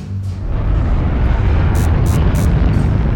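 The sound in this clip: Rockets launching in a heavy, steady roar that swells within the first half second and then holds loud and dense, with a few brief high hissing bursts near the end.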